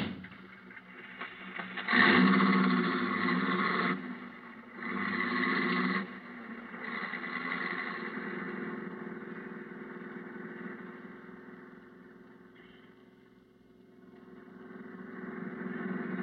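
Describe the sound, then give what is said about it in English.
A car driven fast toward town as it gets dark gives a steady engine drone that surges louder in two stretches early on, then holds level, dips, and swells again at the end. “I hope you don't mind me driving so fast. I'm in a terrible hurry.”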